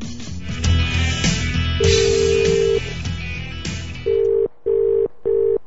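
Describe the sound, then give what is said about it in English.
A telephone call to a 24-hour locksmith in London: a steady tone sounds over background noise, then three clear, evenly spaced ringing bursts follow. “Let's call London, England. Let's call this 24-hour locksmith.”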